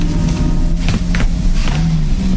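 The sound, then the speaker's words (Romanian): A black Ford pulls into a driveway, its engine giving a loud, steady low rumble broken by a few short rustling bursts. “o mașină neagră intră pe alee. E un Ford.”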